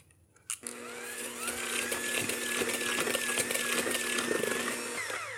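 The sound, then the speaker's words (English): An electric mixer whirs through lemon pudding cake batter. The motorized drone starts abruptly and holds steady and loud, then cuts off just before the end. “we're just going to keep mixing. We're almost there, and then we're going to be done with this really, really quick.”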